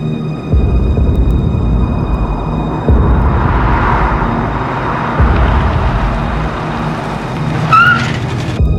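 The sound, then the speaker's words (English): A car driving through a cemetery: a steady, low engine rumble with broad road noise that runs unbroken through the whole stretch, with no voices. “strides purposefully over to his car. He drives through the cemetery.”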